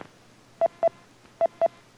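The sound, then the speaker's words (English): A radio repeater's emergency auto-dial sends DTMF tones: four short, clean touch-tone beeps in two pairs over a faint steady low hum. “This is NU6P emergency auto dial.”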